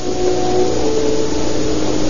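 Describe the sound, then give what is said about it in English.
An automobile engine hums near the paymaster's office of the El Paso brickyard, a steady, muffled mid-pitched rumble that holds level throughout with no voices. “Then, as the sound of an automobile is heard, they stiffen with suppressed”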